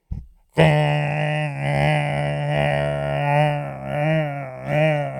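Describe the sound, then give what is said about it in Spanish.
A voice imitates the drone of an airplane engine, as heard from a seat above the engine on a long flight. The low, buzzing hum is sustained for several seconds, with a slightly wavering pitch and loudness. “Pero yo creo que encima del motor es el peor. Esto es lo que tú oyes por 6 horas.”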